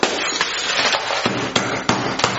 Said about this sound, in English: All you did was shatter the glass. We can still tell what time it is.